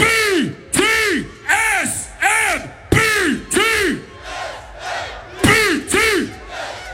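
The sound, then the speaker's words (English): A large festival crowd at the main stage of Ultra Music Festival chants in unison during a live radio show. The loud, pitched shouts each rise and fall and repeat in a steady rhythm. “Before we start, we're gonna chant. Follow me.”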